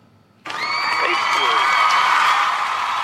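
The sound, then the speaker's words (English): A television studio audience cheers wildly as a guest is welcomed. Loud whoops, shouts and applause break out suddenly after a quiet moment and stay at full strength to the end. “the studio audience is going crazy”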